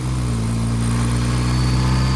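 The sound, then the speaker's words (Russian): A Ferrari car engine runs loud and steady, a deep rumbling drone with strong low harmonics that holds an even pitch throughout, with no voices. “Чарли посмотрел в сторону Фрэнка, ожидая его реакции, разгоняет машину.”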